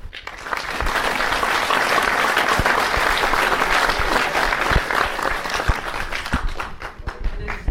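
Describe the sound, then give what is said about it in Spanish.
Audience applause greets a guest professor at a school's 84th anniversary lecture event: dense, steady clapping that holds at an even level for several seconds, thinning slightly toward the end as a few sharper individual claps stand out. “nos acompaña el profesor Pedro Hernández, para quien pido un fuerte aplauso”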